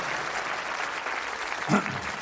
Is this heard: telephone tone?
no